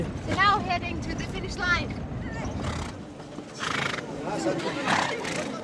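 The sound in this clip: Whinnies from a horse during a town horse race, two sharp neighs in the first two seconds, with people talking throughout and a busy, rumbling background.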